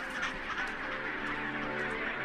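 A massive penguin colony calls in a dense, continuous chorus of overlapping honking cries that stays steady and loud throughout, with no talk.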